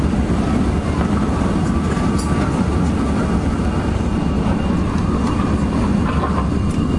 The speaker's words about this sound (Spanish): aterrizando en el aeropuerto de la ciudad de Guayaquil.